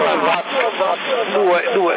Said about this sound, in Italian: Dai, per la gioia del profeta mettiamo tutti l'eco.